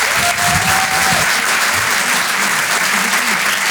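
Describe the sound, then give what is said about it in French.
Applause from a comedy club audience welcoming a comedian on stage: dense, steady clapping that holds at an even, loud level for the whole stretch, with no talking over it. “Faites du bruit pour Adèle Fugazi.”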